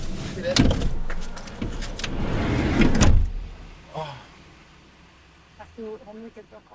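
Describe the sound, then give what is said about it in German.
A car sets off toward the harbour. Loud clattering and door noises last about three seconds, then give way to a quieter steady hum with a few faint, brief sounds near the end. “Wir fahren ohne Christian Richtung Hafen.”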